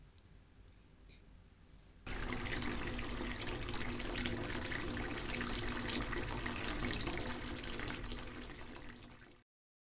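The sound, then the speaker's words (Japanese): Tap water filling a bathtub. It starts suddenly after a couple of quiet seconds, runs as a steady, loud, hissing rush, then fades and cuts off near the end. “じゃあお風呂のお湯溜めてくるからね。”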